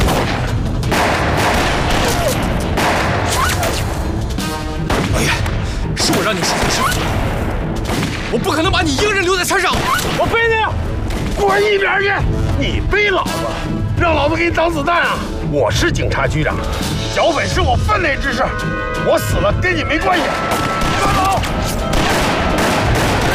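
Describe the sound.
Gunfire from a battle against bandits on a mountainside: many dense, overlapping shots and booms run continuously, with shouting voices mixed in throughout.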